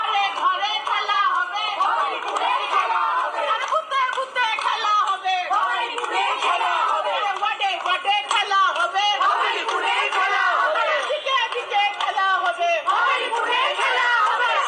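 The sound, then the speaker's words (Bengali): Trinamool women supporters march and chant slogans: a dense crowd of voices shouting together, loud and unbroken throughout, with no pauses between the calls. “আজ তৃণমূলের মহিলা সমর্থকরা মিছিল করে slogan দিয়ে বলেন,”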